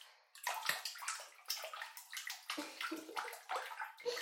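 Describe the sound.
Bath water splashes and sloshes as a body is rinsed, with a rapid series of wet slaps and swishes that come in short, uneven bursts throughout, fairly loud and with no talking.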